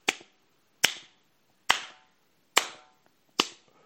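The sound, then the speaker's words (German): Five sharp, crisp claps, evenly spaced just under a second apart. Each is a loud crack with a short decay, and no voices are heard between them. “Vielleicht erkennt ihr ja so dieses Klatschgeräusch oder die Frequenz, mit der es davor schlägt.”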